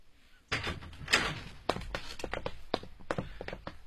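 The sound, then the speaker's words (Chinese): The front door of a home is opened: a sudden clack of the latch, then a few knocks and rattles followed by a quick run of sharp clicks and taps. “周小玲打开了魏仙霞的家门，苗振警惕地走了进去”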